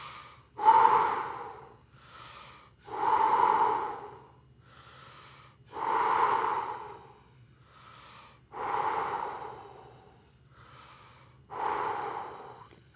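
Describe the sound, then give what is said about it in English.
Breathing exercise with five loud, shallow, hissing breaths, evenly spaced a few seconds apart. A softer breath follows each one, forming a slow, regular rhythm. “Pause, pause, breathe out. Okay, give us 5 shallow breaths.”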